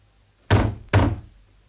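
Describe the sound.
A door is shut and locked, with two heavy, sharp thuds about half a second apart, each fading quickly into a short rumble.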